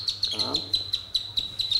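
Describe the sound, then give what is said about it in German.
Avocet chicks three to six days old peep in a rapid, even series of many thin, high chirps on a steady pitch. “Erst wenn alle Küken runter sind vom Grün, kann Ralf den schmutzigen Teppich entsorgen. Nicht allen Eiern entschlüpfen übrigens so prächtige Säbelschnäbler-Exemplare.”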